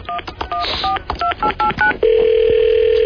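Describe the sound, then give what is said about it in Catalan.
Telephone keypad dialing for a live call to a company's customer service line: a quick run of many short two-tone beeps in uneven rhythm, followed by a loud steady line tone that holds to the end. “Marquem, sisplau. Estem trucant en directe a Embutidos Marilyn, empresa patrocinadora del Michael Schumacher”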